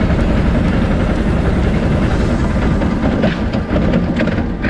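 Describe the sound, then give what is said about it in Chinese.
A car engine roars at full throttle but lacks power because of a throttle fault. The dense, steady drone is loud throughout, with little change in pitch. “我这油门有病的，全油门呢没动力啊， 上去上不来。”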